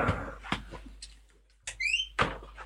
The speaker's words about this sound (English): Can you hear that? Yeah. That is my dog trying to get into the studio.